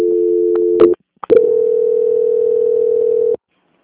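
Steady telephone dial tone during a call transfer: a loud, even, low hum that breaks off briefly with a couple of clicks, resumes for about two seconds, and then stops abruptly.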